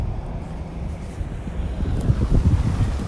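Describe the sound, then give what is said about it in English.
Strong winter wind whips through the streets of downtown Albany, New York, in bitter cold with blowing snow. A steady low roar with gusty buffeting of the microphone grows rougher toward the end. “The wind is whipping and the streets are slick in downtown Albany, New York.”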